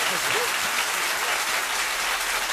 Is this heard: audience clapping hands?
yes